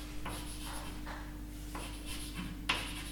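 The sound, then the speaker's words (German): Writing on a board: a few faint, soft scratchy strokes separated by short pauses, then one sharper tap near the end, with no talking. “Kann man das überhaupt lesen, was ich da schreibe?”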